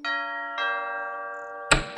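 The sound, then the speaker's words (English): The doorbell of a big gray house rings in a clear two-note chime, each bright tone sustaining and slowly fading, with no voices present. “So Carmela headed over to Enzo's big gray house and rang the doorbell.”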